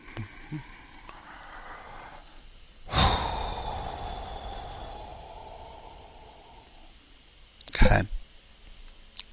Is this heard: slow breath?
yes